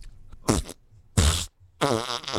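A fart sound effect: three loud, buzzy, rasping blasts separated by short gaps, the last one longest and wavering, with no talking.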